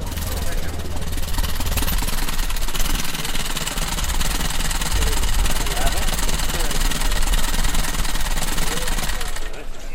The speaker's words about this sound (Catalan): El senyor Pablo Jimeno tancarà amb el Packard, serà l'últim vehicle que sortirà d'aquesta esplanada magnífica davant del monestir.